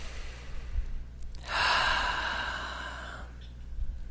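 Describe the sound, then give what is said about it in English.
One long, deep, airy breath lasting about two seconds, steady and breathy, heard alone against a quiet background. “Okay, let's take a nice deep breath, please.”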